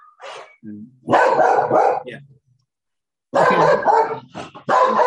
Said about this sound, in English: Someone's dog is barking.